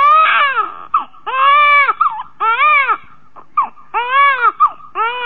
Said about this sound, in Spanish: Ya, mi amor, ya, no llores más.